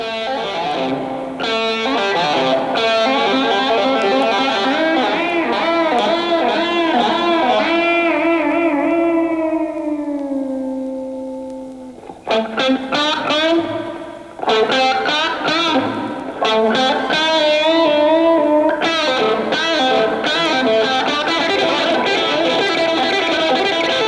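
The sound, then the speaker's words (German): A solo electric guitar in a rock solo plays alone, drenched in reverb and distortion. Strongly vibrato-laden sustained notes, a long downward slide that fades, then bursts of fast runs and feedback-tinged tones. “Hall, Lautstärke, schleifende Töne, starkes Vibrato, schnelle Läufe und Rückkopplungseffekte. Es ist nicht schwer zu erkennen, weil hier die Gitarre ganz allein spielt.”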